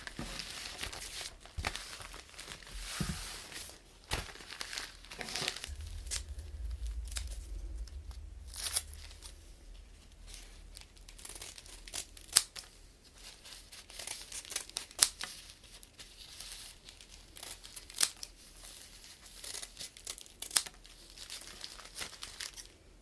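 Crinkly material crackles softly as it is folded back up, with many rustling bursts and a few sharper crackles across the stretch, plus a faint low rumble partway through.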